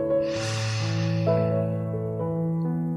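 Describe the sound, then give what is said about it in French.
A single long, deep inhale through the nose, a soft airy rush that swells early and then slowly fades, heard over steady sustained musical tones. “Fermez les yeux et inspirez avec le nez, profondément.”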